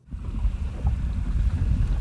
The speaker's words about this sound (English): It's a windy evening on Lake Oahe.